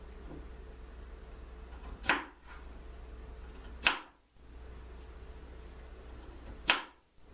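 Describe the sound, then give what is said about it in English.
A knife cuts through potatoes being diced for lemon pepper fried potatoes, making three separate crisp, swishing strokes spaced a couple of seconds apart over a quiet background hiss. “So first of all, we're gonna cut.”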